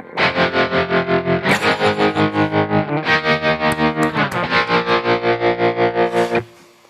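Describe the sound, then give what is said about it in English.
Distorted electric guitar chords run through a tremolo effect on a Kemper Profiler amp modeler, the volume chopped into many fast, even pulses. The chords change a few times before the sound cuts off and fades at the end. “Here is the tremolo.”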